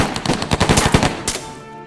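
Gunfire from a sudden ambush: a rapid burst of automatic shots cracking in quick succession, loud and dense, then a final sharp report that rings away into silence.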